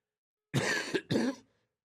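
Two sharp coughs from one person come in quick succession, the second trailing off into a brief breathy tail. The coughs are isolated, with silence before and after.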